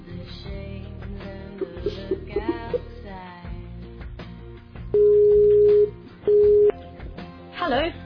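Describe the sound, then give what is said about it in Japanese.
Two steady, mid-pitched electronic tones from a call placed to an internet voice-call test service: the first lasts about a second, the second is shorter. A busier stretch of mixed sound comes before them. “今スカイプの音声通話テストサービスにかけてます。”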